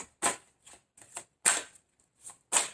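Playing cards being dealt from a deck: a series of soft, crisp flicks and snaps at an irregular pace, each brief and fairly faint, separated by quiet gaps.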